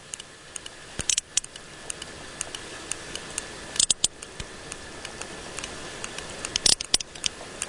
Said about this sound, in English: This is the sound of another sperm whale from the eastern Mediterranean.